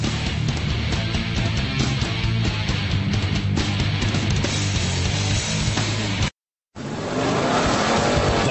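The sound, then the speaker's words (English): Race cars such as Porsche, Corvette, Ferrari, Jaguar, BMW, Mazda, Acura and Audi at a 12-hour endurance road race at Sebring, Florida: a loud, continuous engine roar with tire squeal, a brief moment of silence, then the roar resumes. “See Porsche, Corvette, Ferrari, Jaguar, BMW, Mazda, Acura, Audi, and many other world-class racing teams battle in America's toughest road race”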